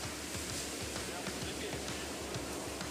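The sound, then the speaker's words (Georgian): Big ocean waves, a faint, continuous roaring wash of churning water with low surging pulses and no clear breaks. “აქ რაღაც ძალიან დიდი ტალღებია. არა, ნორმალურია, მაგრამ ძალიან დიდია.”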